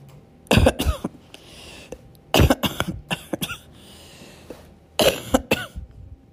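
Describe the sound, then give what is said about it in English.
Painful, wet coughing as a person tries to clear phlegm from the throat while recovering from surgery. It comes in three separate fits of several harsh coughs, with quiet pauses between. “coughing hurts so incredibly bad, but I need to get this phlegm out of my throat”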